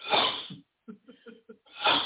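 A sneeze: a loud, breathy burst that trails off, then a few short voiced sounds, then a second loud breathy burst at the end.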